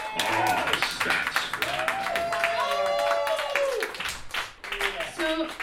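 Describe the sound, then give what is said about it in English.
A live audience at a stage show claps and cheers, with dense, steady applause running almost the whole way through and voices mixed into the noise. “Give it up, make some noise, Miss Robin, Irene.”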